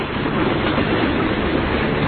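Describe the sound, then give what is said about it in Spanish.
A train passing a railway station, producing a loud, steady rumbling roar that holds at an even level for the whole stretch. “ese tren que pasa, ese tren que se ha llevado tantas vidas”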